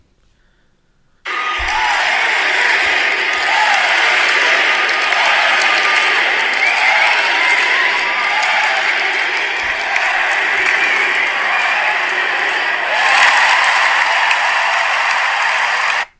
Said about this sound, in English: So some people from the media posting sounds from the stadium. Thought I'd play that for y'all. Gives y'all goosebumps. MVP chants for none other than Steph Curry.